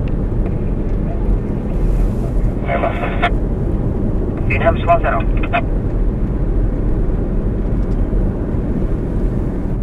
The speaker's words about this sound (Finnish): On se iso. Se on iso kone kyllä.